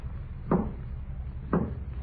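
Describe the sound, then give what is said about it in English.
A basement door thuds twice, opening or closing, each a short dull knock about a second apart over a low steady hum. “Say, now who in the world's that? And it's the basement door again.”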